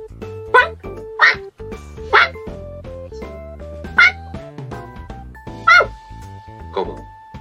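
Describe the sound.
A voice imitates a dog barking, giving six short, sharp yaps spaced irregularly over a sustained musical backing.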